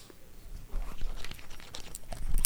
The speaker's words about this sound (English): Okay, ASMR of y'all unwrapping hot sauces.